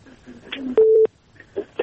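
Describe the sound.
A single short telephone dialing tone sounds as a call is placed, a steady mid-pitched beep lasting about a quarter second, surrounded by faint voices and low background murmur.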